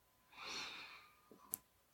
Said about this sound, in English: So we're going to inhale one,